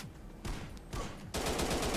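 Gunfire in a video game, faint bursts of rapid automatic fire that break off and restart before settling into a sustained rattling volley.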